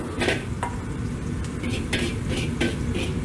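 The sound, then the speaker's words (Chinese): Spatula strokes clatter and scrape in a hot wok as aromatics seasoned with salt and MSG are stir-fried, a few sharp metallic hits spaced over a steady low sizzle, no voices. “锅中加入食用盐3克和味精2克，翻炒均匀之后盛出备用”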